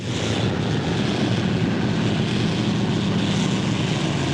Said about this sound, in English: Fitted with skis under its front tires, the plane lands on the sprawling ice sheet, where the relentless winds are raising a fine mist of snow.